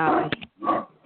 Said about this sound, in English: That's my dog, sorry.